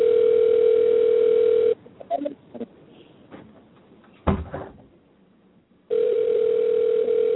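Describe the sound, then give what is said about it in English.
A steady telephone dial tone on a phone call breaks off, giving way to a few clicks and knocks of handling, then resumes just as steady and loud. “He answers the phone.”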